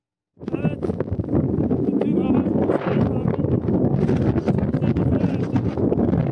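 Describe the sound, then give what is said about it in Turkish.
Strong wind buffets a mobile phone microphone during a summer snowstorm high on Mount Ağrı, giving a steady, loud, roaring rumble with gusty crackles that run without a break after a sudden start, and faint voices partly buried in it. “Fırtına anını cep telefonu kamerasına kaydeden dağcıların zor anları şimdi ekranlara geliyor.”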